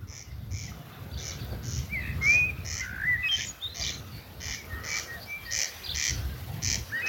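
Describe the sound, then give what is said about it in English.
Corncrake (Crex crex) calling: a dry, rasping double-note croak repeated many times in a steady rhythm over low background rumble, with another bird's brief whistled notes in the middle. “The unmistakable sound of the corncrake, Latin name Crex Crex. Now, it's not the most pleasant call”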